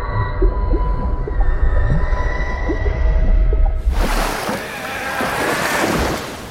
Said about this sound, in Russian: перед лицом в мутной воде поднимаются пузыри.